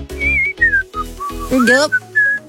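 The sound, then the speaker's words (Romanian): A person whistles a short tune, a series of clear, high, wavering notes broken into several brief phrases with small gaps, some notes gliding up or down. “Nu este o provocare ușoară să fluier, nu-i așa?”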